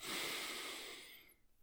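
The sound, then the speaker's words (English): A deep breath drawn in during a guided relaxation, a soft, airy inhale that starts at its fullest and tapers away over about a second into quiet. “Deep breath in.”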